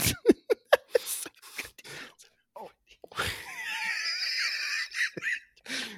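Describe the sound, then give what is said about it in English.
Wheezing from a person laughing in frustration, heard as a few short sharp vocal bursts followed by a long, high, wavering wheeze of about two seconds and a brief voiced sound at the end. “People can hear my wheezing now.”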